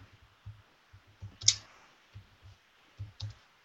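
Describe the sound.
Keys clicking on a computer keyboard as a few short words are typed, with many faint, irregular taps spaced by brief pauses and one slightly sharper click.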